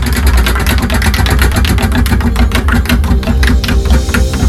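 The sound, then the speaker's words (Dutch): A prize wheel spinning on a game show, giving a loud, continuous stream of rapid clicking ticks from its pointer over a dense rumbling background. “Hoor dat rad gaan.”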